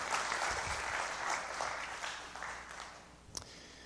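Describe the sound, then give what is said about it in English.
A church audience claps for the greeters at a morning service. The dense, steady applause gradually thins and fades, with a few last claps near the end. “Can we give our greeters a hand this morning?”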